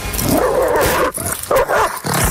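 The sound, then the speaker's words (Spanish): A dog barks and snarls while biting a person, a dense, harsh run of loud growling and barking that breaks off in two short gaps before surging again. “Ese es el sonido de un perro mordiendo a una persona.”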